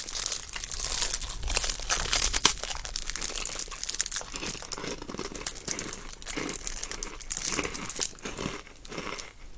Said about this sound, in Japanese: どうすかこのクリンクルサウンド。くすぐったいでしょ。